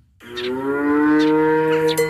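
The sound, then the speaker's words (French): A dairy cow moos on a family farm of about fifty milking cows. After a brief silence comes a single long, deep, steady moo, loud and alone. “En arrivant à la ferme de Manne, à Saint-Just-de-Clay, une frêle silhouette se cache au beau milieu des 50 vaches laitières de l'exploitation familiale.”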